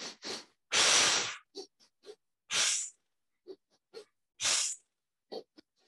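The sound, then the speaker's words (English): Breathing exercise of short, sharp nasal inhalations alternating with longer, forceful mouth exhalations, like squeezing a bellows, repeating in an uneven cycle with no talking. “I do 3 short inhalations through the nose and 1 long exhalation through the mouth, like we're squeezing a bellows or we're trying to blow a candle out on the opposite side of the room.”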